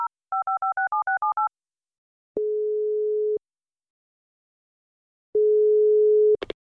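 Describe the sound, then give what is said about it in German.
Telephone tones while placing a call: a rapid run of two-note dialing beeps, then two long, steady, low ringback tones separated by silence, ending with a brief click. “Meinst du, ich kann da mal bei Christine durchklingeln? Sie hat gesagt, ich darf sie immer anrufen, wenn ich noch eine Frage habe. Na, wenn sie dir das sagt, dann rufen wir mal an.”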